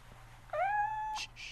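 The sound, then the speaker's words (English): A young female kitten meows on her way to the vet to be spayed: a single clear, drawn-out meow that rises at the start and then holds its pitch, over a faint low background hum. “My new kitty, spaying time, on her way to the vet.”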